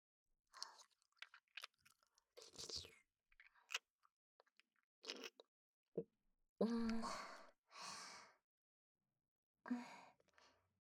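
Close, wet chewing and mouth sounds from a person eating, with a few soft smacks and crunchy bursts separated by breathy sighs and pauses.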